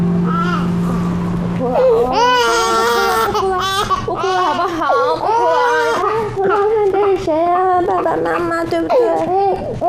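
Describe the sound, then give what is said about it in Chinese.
A child cries in wavering, high-pitched wails and sobs while an adult talks over the crying, the sobbing rising and falling in uneven bursts. “不哭了，不哭了，好不好？不哭了。”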